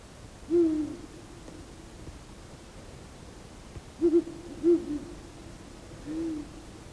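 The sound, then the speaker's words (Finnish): Owls hooting to each other on an evening hillside near a home: short, low, soft hoots, one early, then a cluster of several after a long pause, and one more near the end, over faint steady background hiss. “Tässä on ihan meidän lähellä tässä. Meidän mäellä toinen pöllö.”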